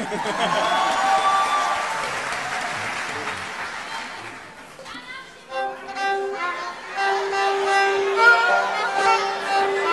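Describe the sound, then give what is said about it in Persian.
Audience applause honoring a group of young performers: a dense, steady wash of clapping that fills the first half, then thins and fades as other sounds take over. “امیدوارم اینا روز به روز پیشرفت بکنن، به افتخار اینا دست بزنم.”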